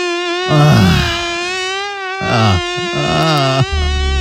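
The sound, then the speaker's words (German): A mosquito buzzes in a bedroom at night, a loud, high, whining drone that holds almost the same pitch throughout without a break. “Ein wahres Prachtexemplar da gestern Nacht bei uns im Schlafzimmer. Ich werde es mir heute mal nochmal angucken. Heute Nachmittag, ja, denn die Mücke hängt weiterhin bei uns an der Wand fest.”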